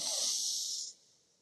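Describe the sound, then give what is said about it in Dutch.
A single slow inhale through the left nostril with the right nostril pressed shut during alternate-nostril breathing: a soft, airy hiss lasting about a second, then fading to near silence. “Dus rechterduim op je rechter neusvleugel, dus die duw je dicht. Je ademt in door je linkerneusvleugel.”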